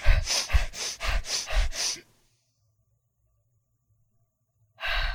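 Several quick, forceful breaths drawn in and out through the nose, part of a breathing routine that ends in a held breath. A run of sharp, breathy bursts is followed by a long silence while the breath is held, then another loud breath.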